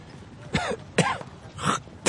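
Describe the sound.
A man clears dust from his nose and throat with three separate rasping, throaty bursts, each short and harsh, spaced with brief pauses and heard alone without talk.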